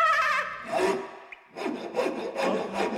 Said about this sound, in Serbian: Polako bre, testero. 2 puta meri, jednom seci.